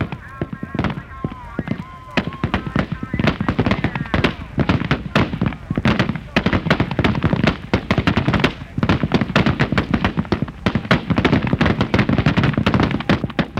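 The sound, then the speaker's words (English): Rifle gunfire at a Navy firing range crackles in dense, continuous volleys of overlapping loud shots with no pauses. “Lock and load. Air target, sir, in the air. Commence firing.”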